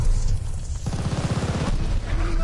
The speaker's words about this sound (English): I've been shot in the back of the head. Hostile dogs in the zone! I've been shot in the legs.